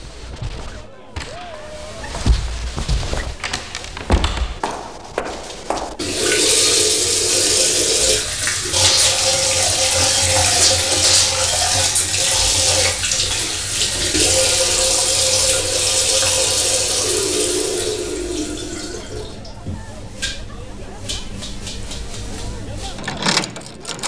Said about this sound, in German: darf ich mir mal die Hände waschen?